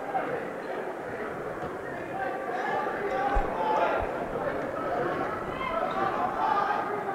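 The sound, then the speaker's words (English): Basketball dribbled before a free-throw attempt in a men's college game, CMU against NMHU: a few dull low thumps under steady crowd murmur and a commentator's voice. “Holds it, deep breath. Now 4 dribbles, spins it, a 5th dribble.”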